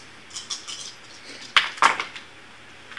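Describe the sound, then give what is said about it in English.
Five dice are rolled: faint, light rattling clicks, then two sharper clacks close together, then quiet. “I just rolled the dice, and I got 2 8s, a 7, a 5, and a 1.”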